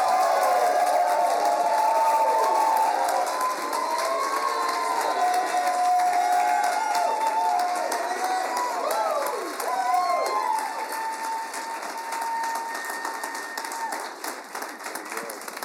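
Audience at a Chi Alpha campus ministry session applauding and cheering in a standing ovation, dense continuous clapping mixed with whoops and shouts, easing slightly toward the end.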